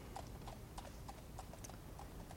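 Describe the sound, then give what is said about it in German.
Hooves of a horse drawing a tram clip-clop in a steady, even rhythm of many hoofbeats, each a crisp knock, heard faintly and alone without voices. “Ich muss hier auf meine Pferdebahn warten.”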